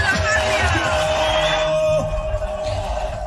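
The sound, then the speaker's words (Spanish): Crowd in Barranquilla loudly welcoming Colombia's president-elect Abelardo de la Espriella: a loud, sustained wash of cheering and hubbub that holds steady and eases slightly toward the end. “todo el pueblo y toda la gente dice fuerte, bienvenido presidente, bienvenido Abelardo de las Priellas.”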